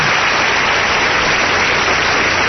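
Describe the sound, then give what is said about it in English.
Audience applause rushes in as a loud, dense, steady roar of many hands, sustained evenly with no single claps standing out and no voices. “You can get a crowd to applaud anything.”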